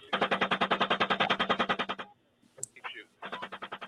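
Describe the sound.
Military gunfire from a gun-camera recording: a long rapid burst of evenly spaced heavy shots with a thin radio-like tone, then a short spoken exchange, then another rapid burst starting up.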